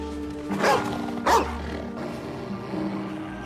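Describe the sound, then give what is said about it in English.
Two harsh barks from a mother dog snapping at her pup, short loud bursts about half a second apart over a low rumbling background. “White Fang follows them. Then he walks alongside and gives his mother a loving nudge. She barks at him and pushes him away.”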